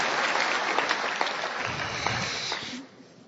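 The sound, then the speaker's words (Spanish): A church audience applauds the worship band with dense, steady clapping that holds at an even level, then drops off sharply near the end. “¿Qué tal un aplauso para ellos?”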